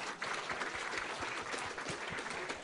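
Audience applause at a prize presentation, an even, continuous patter of many hands clapping that stays at a constant level.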